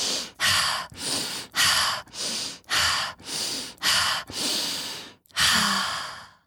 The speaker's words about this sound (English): And then I take 5 deep breaths.